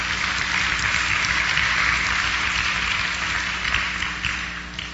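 Applause from an audience during a sermon, a dense steady wash of many hands clapping that holds at an even level and eases slightly toward the end.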